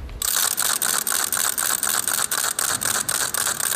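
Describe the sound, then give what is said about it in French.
A small leper's wooden rattle, a crécelle turned with a crank, gives off a harsh, rapid stream of clacking clicks. The rattle pulses in a quick, regular rhythm as the crank turns, and it stays loud and continuous with no voices. “C'est un appareil qu'on fait tourner, donc avec une sorte de manivelle qu'on doit faire tourner et qui fait un bruit très très intense qu'on entend de loin. Cette crécelle, elle est toute petite,”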